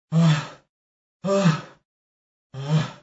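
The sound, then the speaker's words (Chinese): Heavy panting from a voice imitating the north wind, out of breath after failing to topple a little chimney: three loud, voiced, gasping breaths, evenly spaced, with silent gaps between. “北风无奈，坐在小烟囱身边直喘气”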